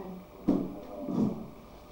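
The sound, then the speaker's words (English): A worn toy cupboard door that no longer shuts properly closes with two soft wooden knocks, a sharper thud followed by a duller, longer one less than a second later, quiet and without talk. “if you close this one, don't bang the other door because then this one will open”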